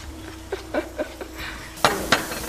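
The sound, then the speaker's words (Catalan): A long cocktail spoon stirs a drink in a glass, making a few light metallic clinks and scrapes, with two sharper clinks near the end. “I d'aquí que necessitem una cullereta tan llarga, perquè és el barrejador, que tenim un còctel.”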